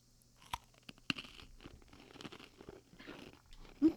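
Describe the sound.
Crunchy cookies being eaten: quiet crisp crunches and bites at irregular moments, with soft chewing and mouth noises between them and no talking.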